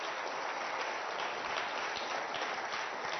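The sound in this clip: An audience applauds a volunteer who has just been introduced, with brisk, even clapping that stays at a steady level from start to end and has no voices over it.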